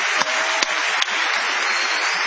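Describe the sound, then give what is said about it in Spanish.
Audience applause and ovation greeting a guest at an evening event: a dense, steady wash of many hands clapping, loud and continuous throughout, with a few sharper individual claps standing out, no voices heard. “Vamos a prolongar el aplauso de saludo con una ovación a Patricio Bartón.”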